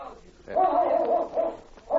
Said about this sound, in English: Say, look at that Malamute. He's a beauty. Just what we need.